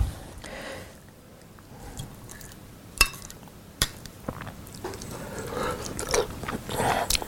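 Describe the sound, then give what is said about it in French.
Someone tastes and chews a clementine sauce served with foie gras, making soft, wet mouth noises broken by a few sharp clicks, quiet at first and busier toward the end. “Notre sauce. Bon, on va goûter ça, hein On va voir si ça va.”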